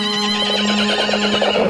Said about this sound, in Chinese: 话音未落，就见很远处三辆马车风驰电掣般的奔了过来。